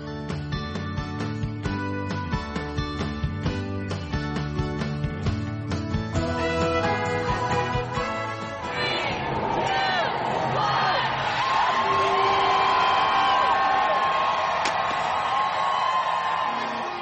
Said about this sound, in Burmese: ကြားခဲ့ရတာကတော့အမေရိကန်ပြည်အောင်စုနယူးယောက်မြို့က Times Square ရင်းမြစ်မှာနှစ်သစ်ကိုကျူးစွန်နေကြတာပါ